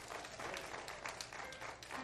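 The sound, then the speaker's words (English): A church audience claps hands in praise, a dense, steady patter of many hands that runs throughout at a fairly faint level. “Give the Lord a great hand clap of praise.”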